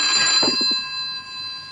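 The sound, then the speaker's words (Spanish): A telephone rings in a house with a steady, high electronic tone that holds through the whole moment, and a few soft low knocks come near the start. “¿Crees que debemos contestar el teléfono?”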